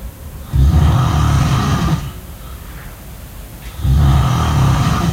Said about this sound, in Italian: non sono io che sto russando, vero? Non mi hai registrato di nascosto.